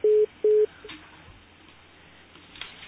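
Two short, steady telephone tones sound on a call-in line as a call is connected, followed by faint line hiss and a few soft clicks.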